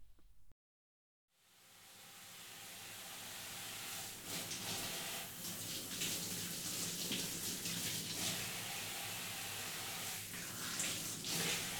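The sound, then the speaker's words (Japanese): Water runs from a tap to wet hair during a hair wash at a salon basin. After a brief silence it swells in and settles into a steady, broad hissing flow. “それじゃあ髪の毛を濡らしていきますね。”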